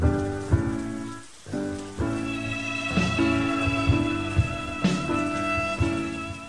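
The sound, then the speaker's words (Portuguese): Rain falls in a garden as a dense, steady hiss of drops that carries on through the whole clip, with a few louder swells along the way. “Enfiei-me mais para dentro do jardim para me proteger da chuva.”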